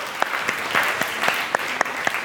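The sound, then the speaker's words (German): Brief audience applause for a man who volunteered during a question session: dense clapping with many crisp, distinct hand strikes standing out from the continuous patter at a steady loudness. “Kurzen Applaus für unseren mutigen Mann.”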